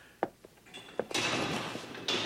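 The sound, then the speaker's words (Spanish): A prison cell door opening and then closing: a few sharp knocks and clunks, followed by a sustained rushing, scraping noise that swells near the end. “La puerta de la celda se acaba de abrir delante de nosotros. Y ahora se cierra detrás de nosotros.”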